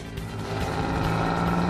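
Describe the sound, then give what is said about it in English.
A car engine, from a sedan with leather seats and an AM/FM radio, drones as the car drives away, a steady rumble whose pitch rises toward the end. “Ha-ha! We're getting away! In this really fun car!”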